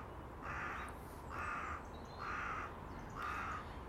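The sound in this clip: A crow caws four times in a steady, evenly spaced rhythm. Each harsh, nasal call rises clearly over a constant hiss of background noise on a morning full of bird activity near garden feeders.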